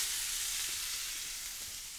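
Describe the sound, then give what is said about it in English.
A salt-and-pepper seasoned steak sizzles in a lightly oiled pan, a steady, soft hiss that fades slightly toward the end, with nothing else heard. “Start by seasoning your steak. Salt and pepper. Both sides, of course. A little oil in the pan, and in goes the steak.”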